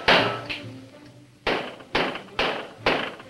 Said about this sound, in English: uses his gun butt to hammer a small bell onto the front door of the house.